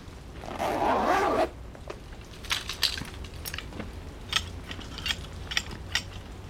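A rifle handled and readied to fire for a shot at about thirty meters: a loud rasping, zipper-like sweep lasting about a second, then a run of small mechanical clicks and light rattles.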